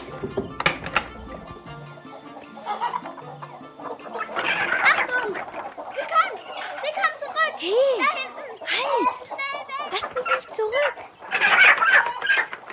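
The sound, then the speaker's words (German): Chickens clucking and squawking in a henhouse, with several bursts of rising and falling calls. Children's voices talk over the birds throughout. “Na los, schleichen wir in den Hühnerstall. Ich habe Lust auf Eier.”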